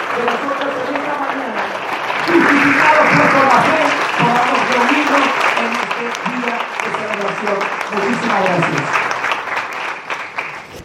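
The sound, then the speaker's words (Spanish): Sustained audience applause at the Palacio Legislativo de la Provincia de Misiones during a pastor's address, dense clapping lasting about ten seconds with a voice speaking over it before it thins out. “Apláudale al más grande, Jesús de Nazaret, que ha hecho posible”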